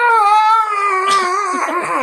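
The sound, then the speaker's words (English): A person howls in imitation of a character during a role-play game: one sustained, wavering, harmonic cry lasting about two seconds, loud and steady at first, then breaking into a rougher, fluttering tail. “This is when Rogvir just howls. You just hear him go,”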